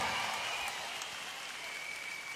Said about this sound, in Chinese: 再次掌声俾我哋嘅 band